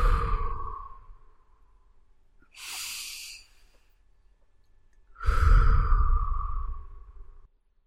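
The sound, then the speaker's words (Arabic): Deep, slow breathing during a relaxation exercise in bed: three separate breaths with quiet gaps between them. The first and last are broad, airy and full, and the final one is long and loud. The middle breath is a thinner, hissier intake. No talking. “جميل كم هذا مريح شهيق زفير”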